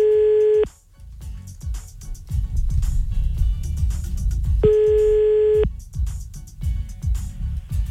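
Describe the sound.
A telephone tone sounds while a call is being placed again, in two steady, even bursts: a short one at the start and a longer one later. Low, rumbling noise fills the gaps between them.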